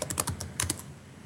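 Rapid keystrokes on a computer keyboard as a command is typed, a quick run of sharp clicks that stops partway through and leaves quiet behind.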